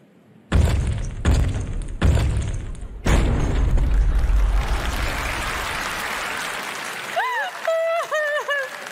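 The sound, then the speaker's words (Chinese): Beat-sync sound effects for a short video: four loud booming hits, then a crashing, noisy burst that slowly fades, followed by several quick, bending tonal chirps. “我这个是卡点音效，我这些可火了。”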